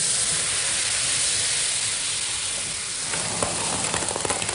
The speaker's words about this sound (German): dass das Öl nicht so spritzt, wenn du den Teig da reingießt, ja?